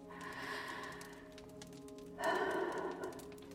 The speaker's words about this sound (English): let's take our habitual 3 deep breaths and get started.